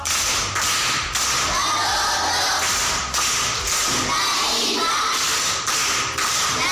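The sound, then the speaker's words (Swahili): Applause from a primary school group at Kilimani for a child who solved a Swahili riddle: loud, dense, continuous clapping that keeps going with a few brief dips, sounding steady and sustained. “Makofi kwa mjomba.”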